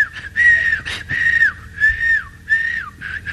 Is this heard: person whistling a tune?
yes